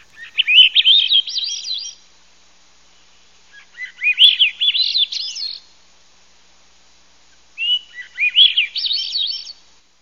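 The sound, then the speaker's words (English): Song of a secretive songbird closely related to robins and thrushes: three musical, warbling phrases, each about two seconds long, separated by short pauses, clear and alone. “it's first cousin to the robin and the buried thrush. So it's about that size, but it's very, very secretive, but it has a beautiful, beautiful song.”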